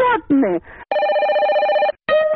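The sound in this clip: A telephone rings to open a call-in segment: brief gliding electronic tones give way to a long, steady electronic ring, and a second ring starts after a short gap.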